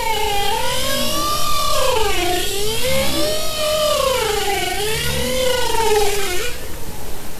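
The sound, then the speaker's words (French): Bowhead whales vocalize underwater in long, continuous moaning calls, harmonically rich tones that swoop up and down in slow undulating waves over a steady noise floor, with no breaks throughout. “Ah oui, c'est des baleines, oui. Alors c'est pas des baleines à bosse, c'est baleines boréales.”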